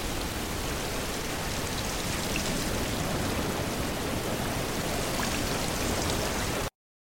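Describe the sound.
Steady, dense rain pours without pause for about six and a half seconds as a loud, even wash of hiss, then cuts off abruptly.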